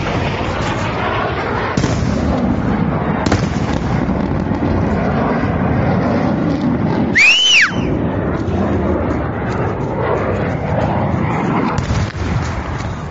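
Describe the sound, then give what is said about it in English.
Loud, sustained blast roar from a cruise missile strike in a played video, a dense rumbling wall of noise with a brief, arching high-pitched whine partway through. “Looks like some kind of cruise missile came in.”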